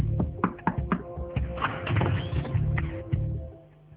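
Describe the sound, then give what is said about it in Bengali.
Someone knocks on a door with a door knocker: many sharp, dull raps in an uneven rhythm over a low, steady tonal background, fading out near the end. “এমন সময় দরজায় কে যেন কড়া নাড়ল।”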